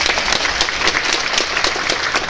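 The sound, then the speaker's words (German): Dense, steady audience applause for the contestants of a scored competition. Many hands clap evenly and continuously, without a break or any talk. “Da haben wir einen riesen Applaus für die Kandidaten.”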